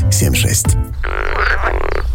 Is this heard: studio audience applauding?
no